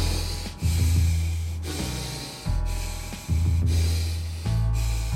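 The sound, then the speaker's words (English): Rhythmic breathing in and out through the nose, steady and paced as an exercise tempo. Airy inhales and exhales alternate evenly over several cycles, fairly loud and with no talking. “Inhale through the nose, exhale through the nose. At the minute, the tempo should sound like this.”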